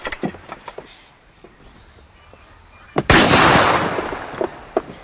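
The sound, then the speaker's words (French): A single rifle shot fired at a port as an answering signal to a signal from shore. It is a loud, sharp crack followed by a long rumbling tail that fades over about two seconds, with faint clicks and knocks before it. “Le signal de terre. Voici un fusil. Voulez-vous y répondre vous-même ?”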